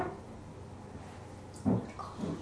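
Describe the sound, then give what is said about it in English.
Water splashes as a child swims in a pool during a swimming lesson: quiet lapping, then two brief, louder splashing bursts near the end. “No, I'm having a swim. I'm having a swim in the pool.”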